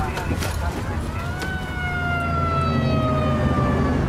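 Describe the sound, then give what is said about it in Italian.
Police car siren wailing in a pursuit, a loud, steady tone with strong harmonics that rises gently and then slowly falls, carried over continuous road noise. “il poliziotto si lanciò all'inseguimento a sirena spiegata”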